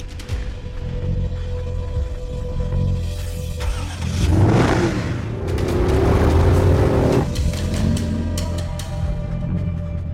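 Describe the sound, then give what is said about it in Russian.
A car engine revs, its steady running hum swelling into a louder, rougher rev through the middle before easing back to a steady drone. “услышал звук мотора.”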